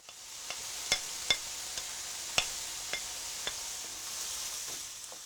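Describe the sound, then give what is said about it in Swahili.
Onions and bell peppers fry in a pan after chicken has been browned. A steady, soft sizzle runs throughout, dotted with several sharp crackles and pops. “Kaanga vitunguu na pilipili hoho hadi viwe angavu.”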